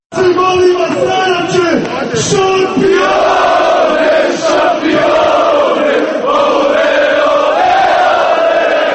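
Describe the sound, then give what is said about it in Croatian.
FK Željezničar fans and players sing their championship song in Grbavica, Sarajevo, after the club won the Bosnia and Herzegovina title. The massed voices form a loud, sustained chant with shouts rising over the crowd. “Šampionska pjesma navijača i fudbalera ovog tima orila se sinoć sarajevskim naseljem Grbavica.”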